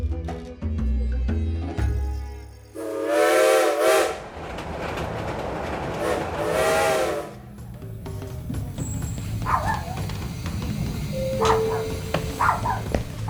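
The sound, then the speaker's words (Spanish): A steam train arrives at its last stop, giving two long, loud whistle blasts, followed by rumbling and scattered metallic clanks as it slows. “hemos llegado a nuestra última parada. Por favor, dejen el tren y no se olviden de sus pertenencias.”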